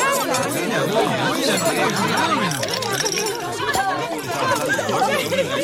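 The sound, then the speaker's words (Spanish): Dense chatter of many voices at a dinner, with overlapping talk and laughter and occasional light clinks of dishes and glasses, steady and busy throughout. “Seguramente estos te parecieron sonidos de una cena cualquiera”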